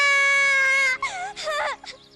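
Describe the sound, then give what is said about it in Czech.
A child cries after a wasp sting: a loud, sustained high wail for about a second, then broken, wavering sobs that fade into a few shorter whimpers. “Proč brečíš? Mě štípla vosa!”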